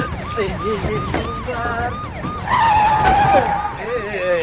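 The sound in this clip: Tires of a car screech as it is driven erratically, with repeated short wavering squeals followed by one longer, sliding squeal over a rough bed of engine and road noise.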